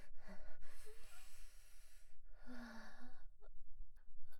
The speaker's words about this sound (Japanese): 落ち着いて深呼吸。